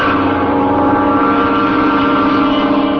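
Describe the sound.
A propeller engine running, a loud, continuous droning hum with steady low tones and no break in level throughout.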